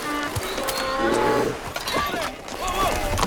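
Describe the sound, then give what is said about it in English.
A horse rears up and bolts when a grizzly bear blocks the trail, with sharp neighing cries rising over dense, noisy commotion in a film scene. “Their way is barred by a grizzly bear. Ennis's horse rears up and throws him.”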